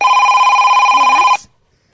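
A telephone rings for an incoming call to a radio quiz: one steady, trilling electronic ring that holds for over a second and then cuts off abruptly into silence.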